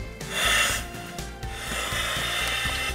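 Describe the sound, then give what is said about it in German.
Rasping, scraping rubs as parts are screwed back together after a seal is replaced, during a drill in chemical protection suits. A steady, gritty grinding runs throughout at moderate loudness. “Wir hatten die Dichtung gerade rausgenommen. Ja, ja, das ist der neue schon drin. Da wir schrauben jetzt wieder zusammen.”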